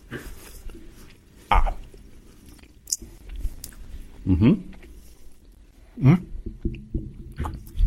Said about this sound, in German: Ja, bitte kosten wir mal. Ich lege es jetzt in meinen Mund ein, ja?